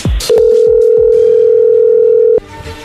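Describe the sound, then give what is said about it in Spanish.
A steady, loud telephone line tone holds for about two seconds as a call is dialed, ending abruptly and followed by faint background noise. “vamos a llamarle otra vez a Andrés.”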